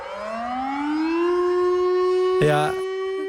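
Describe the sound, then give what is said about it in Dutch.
A civil defense siren sounds its monthly noon test, its loud wailing tone rising in pitch over the first second or so and then holding steady. “Dit is de 12 uur sirene natuurlijk. Van elke eerste. Dit vind ik dus echt een supermooi geluid.”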